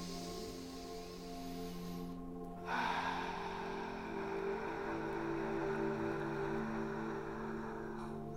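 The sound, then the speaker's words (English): A soft, airy deep breath drawn in during a heart-centred meditation, faint and drawn out over a low sustained drone. “I want you to take a deep breath into your heart.”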